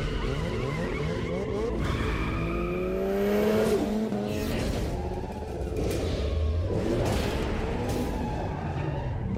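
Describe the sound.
A car races through the night in the Need for Speed Carbon video game. A loud engine whines and revs with rising pitch sweeps, tires squeal and skid, and the noise stays dense and continuous throughout.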